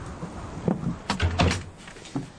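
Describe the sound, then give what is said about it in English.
A door is opened to let a cat out, with a few soft clunks and rattles that stand out from a quiet background. “Vanya, open the door. Out you go.”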